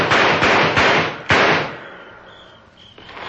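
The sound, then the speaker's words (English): Four gunshots are fired at fleeing people in a quick, slightly uneven series of sharp cracks, each trailing off, before the scene falls quiet. “You're not much of a shot, are you, King? I think my bullets whispered to their nostrils.”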